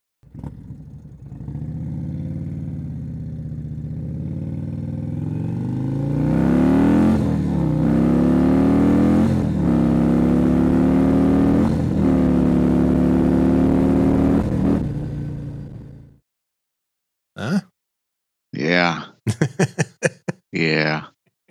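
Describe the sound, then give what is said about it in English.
A 2019 Indian Chieftain motorcycle with a 111 Thunderstroke engine and 585 cams rumbles at a deep, loud idle, then revs up and holds higher-pitched throttle blips before cutting off; brief talk follows. “This is a Chieftain. I believe it's a 19 Chieftain 111 Thunderstroke with, of course, the Lloyd treatment, the 585 cams and all the touches for your listening pleasure.”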